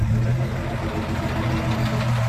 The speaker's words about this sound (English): a dusty safari truck packed with Aussie actors driving through an outback town